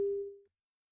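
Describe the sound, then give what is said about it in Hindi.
Telephone tone after a call is disconnected: a single steady mid-pitched beep lasting about half a second, then silence. “Hello, phone cut गया है।”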